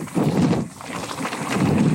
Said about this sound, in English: it's just hilly in Arkansas, so I'm going to have to talk over the wind.